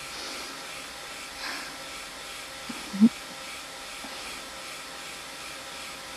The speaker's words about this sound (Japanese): 最初はこういう風に温風で乾かして、最後の方は冷風で仕上げていくのがコツだよ。最初から最後までターボで一気に乾かすのはダメ。